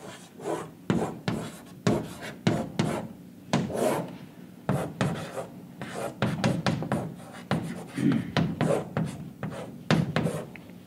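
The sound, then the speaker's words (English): Handwriting on paper: a pen scratches and rasps in many short, uneven strokes with brief pauses between bursts, soft and close throughout. “Glory, I should write this down because these words are so contrasting.”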